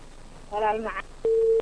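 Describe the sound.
A telephone tone sounding after a dropped call, coming right after a brief voice fragment: a single steady mid-pitched tone held for a short moment, clear and unbroken.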